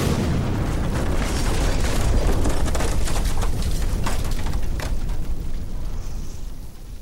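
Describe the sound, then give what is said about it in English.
A house explodes with a sustained, heavy roaring rumble laced with crackling bursts, holding loud throughout before easing slightly near the end. “We can't get any closer. The house is about to explode.”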